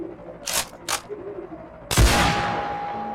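A gunshot fired at a target on a rooftop lands as one loud, sharp crack with a long fading tail, preceded by two brief, noisy bursts.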